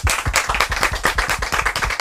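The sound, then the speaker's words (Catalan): Audience clapping from a group asked to act as the audience before an interview about a computing olympiad. Many quick, distinct claps land in a loose, fairly regular rhythm at a moderate level. “Que esteu preparats per fer de públic i fer molt d'aplaudiments? Sí. Anem a comprovar-ho. Un aplaudiment.”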